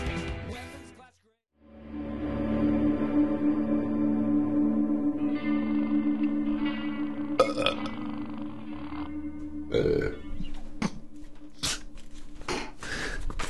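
A prolonged, loud, low rumbling belch drags on for several seconds, followed by a few shorter gassy bursts.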